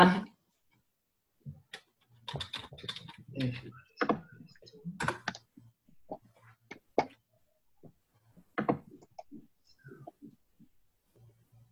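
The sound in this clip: Computer keyboard typing as a chat message is written, irregular bursts of quick light key clicks with short pauses, fairly faint throughout.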